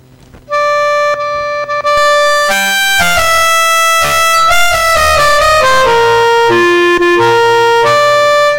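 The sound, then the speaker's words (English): Clarinet music rendered as MIDI by LilyPond notation software plays alone and loud. A melodic line of evenly held, mechanical notes moves without dynamic shading or expressive timing, the tones steady and reedy. “Which means that when you take a piece of music like this and generate MIDI using Lily Pond, it sounds like this.”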